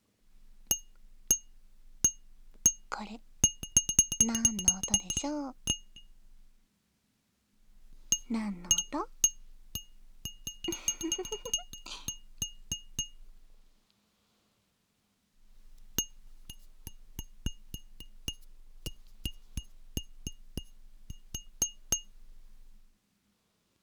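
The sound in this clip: A finger taps a glass cup, giving many light, bright clinks in three separate bursts with short silences between. A voice speaks over the taps in the first two bursts.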